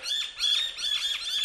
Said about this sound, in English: don't know what those birds are. I think they're sort of pest birds.